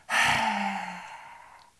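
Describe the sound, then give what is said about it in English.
A loud, open-mouthed exhalation with the tongue stuck out, done as a face yoga lion breath. It is one long, breathy rush of air that starts abruptly and slowly fades out. “Exhale, open your mouth, stick out your tongue, make a loud”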